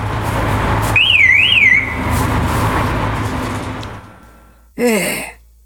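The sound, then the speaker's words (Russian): A car's sound signal from an old passenger car: a warbling electronic tone near the start, then, after a quieter stretch, one short bright harmonic honk. “Табиот так разнервничался, что собрал все остатки энергии, мигнул фарами и подал звуковой сигнал.”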